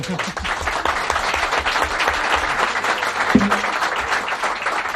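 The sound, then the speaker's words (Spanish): Audience applause for a singer and guitarist, a dense, continuous clatter of many hands clapping at a fairly even loudness throughout. “Este aplauso para nuestro músico, para nuestro cantante”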